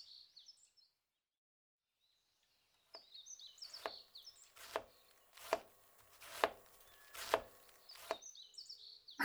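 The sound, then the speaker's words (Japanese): A knife chops vegetables such as onion, eggplant and sweet potato for barbecue skewers. It makes a series of firm, evenly spaced strokes on a board, and birds chirp faintly at the start and end. “そしたら、私は食材を切っていくから、おじさんは切った食材を串に刺してもらえるかな？”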